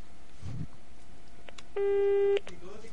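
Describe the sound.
A telephone line tone during a call: a single steady, buzzing electronic tone holds for over half a second after a few faint clicks and rustles, then cuts off sharply.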